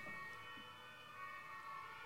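A police car siren as the car drives past: a faint, steady, tonal wail over low traffic rumble, sustained throughout the short stretch.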